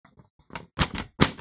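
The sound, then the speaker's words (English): A big, hefty paper report is handled and dropped onto a desk. A few faint papery rustles come first, then two loud, dull slapping thumps. “this big report just came out. You can hear how big that one is.”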